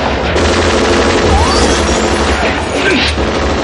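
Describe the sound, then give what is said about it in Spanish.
Bursts of automatic gunfire in a shootout among office tables in the 1988 action film Die Hard: loud, continuous rapid fire mixed with smashing and crashing impacts throughout. “Corre entre las mesas sorteando ráfagas.”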